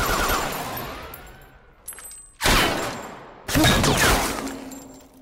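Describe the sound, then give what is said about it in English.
Heavy gunfire from a film firefight: a few loud, harsh blasts, each trailing off in a long ringing decay, with thin metallic whines and quieter shots between them. “Free Fire, the guns you've used have, you know, real volume. They seem like loud and nasty and in your face.”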